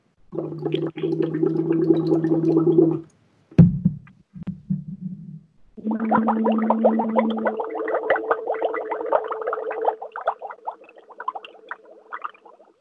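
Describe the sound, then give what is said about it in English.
Air bubbles blown through water, likely through a straw, gurgle with a voiced hum riding on them: a steady burst, a break with a few short sputters, then a longer bubbling stretch whose tone steps up in pitch. “You want to keep the bubbles consistent. Keep them consistent and don't blow them too hard.”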